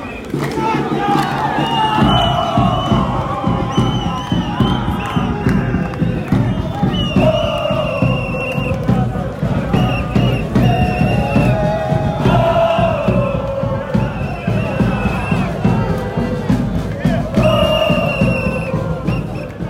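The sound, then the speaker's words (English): Loud crowd noise from a large group of Tunisia football fans walking past in a market, with steady chanting and cheering voices that stay dense and continuous from start to finish. “And a huge group of Tunisia fans walking by the camel. Cool. The camel does not like being close to all this noise.”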